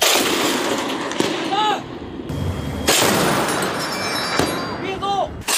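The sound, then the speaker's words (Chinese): Repeated gunfire from a minesweeper's deck gun shooting at floating sea mines during naval training at sea: several sharp, loud reports spaced one to two seconds apart over a constant rushing background. “伴随着多次开火射击，海域水面浮雷被成功清除。”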